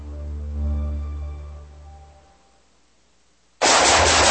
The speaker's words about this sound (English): Nice shooting.